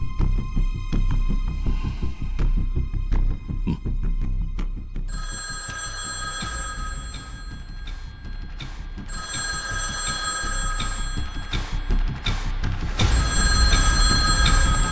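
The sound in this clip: A telephone rings with bright, repeated bell tones in a steady rhythm throughout, fairly loud and heard alone without talk.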